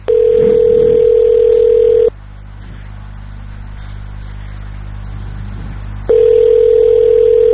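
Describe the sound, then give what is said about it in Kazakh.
Ringback tone of an unanswered telephone call to a government press office: a loud, steady, mid-pitched tone lasting about two seconds, a four-second pause with faint hum, then the tone sounds again. “мы позвонили в пресс-службу этого ведомства. Однако все телефоны молчали.”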